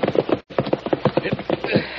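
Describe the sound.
Horses' hooves clip-clop steadily along a trail as riders pull up near a cabin, a brisk, even run of many hollow hoofbeats with one brief break.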